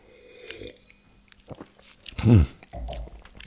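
Sipping juice, with a few soft wet mouth noises and one noticeably louder gulping slurp among them; no talking.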